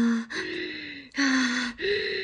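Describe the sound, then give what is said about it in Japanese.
Heavy, voiced gasping breaths after exhausting, strenuous exertion, a few long drawn inhalations and exhalations separated by brief gaps, loud and close, with a breathy, out-of-breath quality. “ああちょっと深呼吸”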